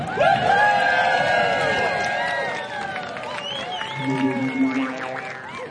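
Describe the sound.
Audience applause and cheering welcome a performer onto the stage at a live music concert in Butte, Montana: a steady wash of clapping with whoops and shouts riding over it, easing slightly toward the end.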